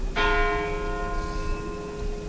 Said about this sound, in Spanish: mientras sigue el tañir de las campanas